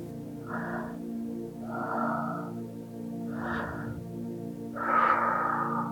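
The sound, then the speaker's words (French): Slow, even breathing in and out during a relaxation exercise, with no pause between exhale and inhale. Four soft airy breath sounds in a wave-like rhythm over a faint, steady musical drone. “On inspire, on expire. Inspire, expire. C'est une vague.”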